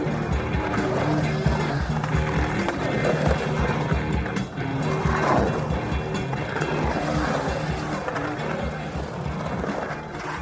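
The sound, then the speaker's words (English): Skateboard wheels swooshing and rolling through an empty swimming pool: a loud, steady rumbling roar with gentle surges and swells, and no voices. “I'll never forget just that modern beautiful swooshing sound of a skateboard going through a empty swimming pool.”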